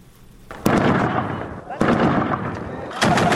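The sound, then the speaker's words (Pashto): Gunfire from fighting between Afghan forces and Taliban insurgents in the provincial centre of Kalat, Zabul: three loud, sharp blasts at roughly even intervals, each decaying slowly into a long rumbling tail. “دا په زابل مرکز کلات کې د افغان ځواکونو او وسلوالو طالبانو ترمنځ د جګړې ډزيدي.”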